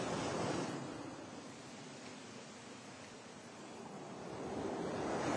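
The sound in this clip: Sea waves washing on the shore, a steady broad rushing roar that swells at the start and again toward the end, with no voices.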